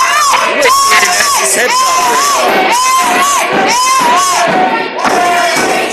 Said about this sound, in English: Joe's in blue trying to get the crowd fired up. Unfortunately, it's working in the wrong way as they're cheering for Nasty.